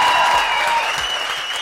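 An audience gives warm applause to welcome a singer joining an interview program, a loud, dense, continuous clapping that tapers off slightly toward the end.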